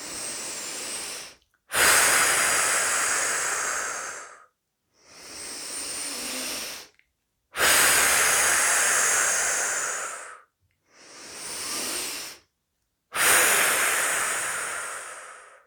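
Slow, audible breaths during a relaxation exercise: six long, airy rushes of one to three seconds each, separated by short silences, loud and breathy with no talking.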